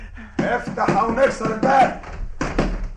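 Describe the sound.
Pounding on a door during a tense drama scene, with soldiers demanding entry: a few heavy thuds mixed under loud, urgent shouting voices.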